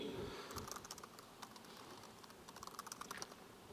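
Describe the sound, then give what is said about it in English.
Rapid typing on a computer keyboard: many quick, light key clicks in an uneven run, fairly faint, with no talking. “See how I typed docket?”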